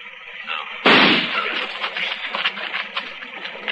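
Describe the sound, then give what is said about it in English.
A single gunshot fired at a tree during a standoff: a sharp, loud crack followed by a rattling, crackling tail that fades unevenly over a few seconds. “I'm going to flip a shot at the tree”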